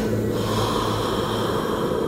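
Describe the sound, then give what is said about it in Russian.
A deep, breathy inhale taken during a breath-holding exercise, a steady airy rush that continues without pause for about two seconds, with no talk over it. “Вдох, глоток, это все на задержке дыхания. Вдох.”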